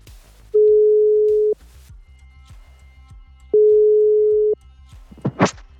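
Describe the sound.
Ringback tone of an outgoing telephone call: two long, steady, mid-pitched tones of about a second each, separated by a pause of roughly two seconds over faint background noise, followed by a short sound at the end.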